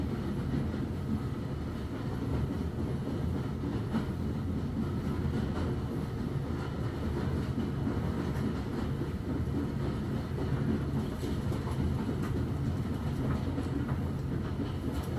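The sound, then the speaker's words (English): A train carriage crosses a viaduct with a continuous low rumble and faint, irregular rhythmic clacks of wheels on rail. “As quickly as you arrived, carriage reaches the end of the viaduct,”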